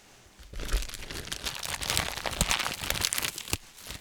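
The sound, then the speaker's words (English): Plastic trash bag, loosely taped inside a box, crinkling and tearing as it is cut open: a dense, scratchy run of crackles and rips that lasts nearly four seconds, with no voices. “It looks like they kind of tried to tape the trash bag, but they didn't do a very good job. Okay, so inside, then we have... I'm going to have to cut these open.”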